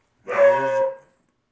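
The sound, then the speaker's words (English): A dog's single drawn-out bark or yelp in a studio, loud, tonal and steady in pitch, lasting under a second and heard alone. “Everyone pardon my dog. Our studio is not completely soundproof.”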